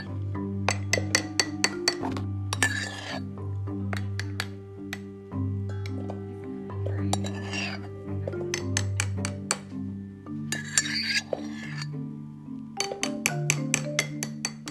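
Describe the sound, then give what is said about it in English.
Whipped coffee being whisked and then added to milk makes many sharp clinks in uneven bursts, some quick and clustered, some single, over steady background music. “and whisk it up and put it right into my milk.”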